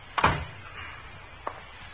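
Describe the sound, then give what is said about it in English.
A door is shut, giving a faint dull thud, then a smaller knock about a second later, both set against a low steady hiss with no voices. “You can go out or stay in, but shut the door.”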